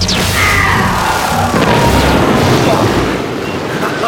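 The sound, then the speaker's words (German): A laser cannon firing in a sci-fi battle: a dense, loud, unbroken roar of blasting noise with booming crashes that runs through the whole stretch. “Ich komme hier mit der Laserkanone in die Köpfe rein!”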